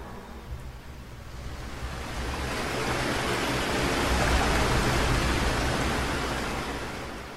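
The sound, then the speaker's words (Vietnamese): Water rippling against both sides of a boat, heard as a steady soft rushing wash that slowly swells louder through the middle and eases slightly at the end, with no voices. “Nước ở hai bên mạn thuyền lại nổi gợn sóng lăn tăn lần nữa.”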